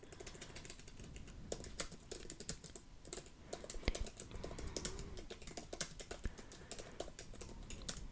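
Quiet typing on a computer keyboard as a message is written, with many light, irregular key clicks in quick succession and brief pauses between bursts.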